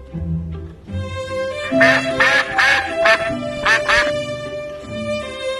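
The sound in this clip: Duck quacking in several nasal bursts clustered mid-clip, set over steady tonal music with no talk; the ducks belong to a children's snow-painting scene.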